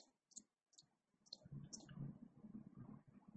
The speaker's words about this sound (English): So now I have enough space to do all 10, so I'm going to go and click all 10.